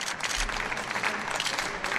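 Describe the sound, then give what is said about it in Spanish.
Applause from party colleagues greeting arrivals at a provincial court, a dense, continuous patter of many hands clapping at moderate loudness. “los exconcejales Carlos Sánchez Mato y Celia Mayer y la exdelegada de Madrid Destino, Ana Varela, han llegado entre aplausos de compañeros de partido a la audiencia provincial.”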